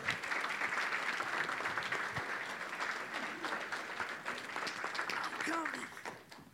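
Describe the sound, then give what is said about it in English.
An audience applauds to welcome a speaker to the stage, with sustained, dense clapping that tapers off near the end as a voice begins. “I'm going to ask you to put your hands together and help welcome my friend, Mr. Frank Pond.”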